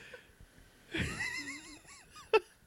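A man squirts beer out of his nose with a sputtering, snorting burst, followed by wheezy, warbling laughter and one sharp final snort.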